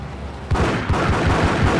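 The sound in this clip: Rapid bursts of gunfire in a video game start after about half a second of quieter sound. Many loud, punchy shots follow one another in a quick, uneven stream until the end.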